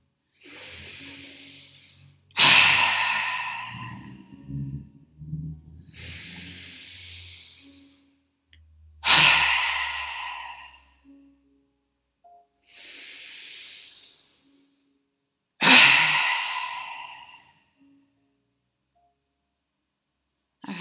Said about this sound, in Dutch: adem even krachtig in en weer krachtig uit